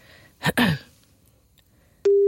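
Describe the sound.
A telephone ringback tone as someone places a call: a steady, loud mid-pitched tone starts just before the end, after a short burst of rustling noise.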